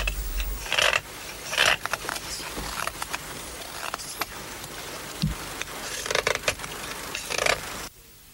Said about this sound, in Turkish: İki aleti var sadece. Bir keseri ve bir de kıvrık uçlu bıçağı. Ama mahir eline yakışıyor aletleri. Bir makine hızıyla tamamlıyor işlerini.